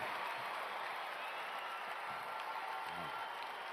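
A crowd at the Harvest Crusade applauds to welcome Mel Gibson, a continuous, quiet roar of clapping and crowd noise that stays level throughout.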